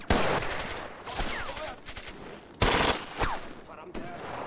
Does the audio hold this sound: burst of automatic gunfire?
yes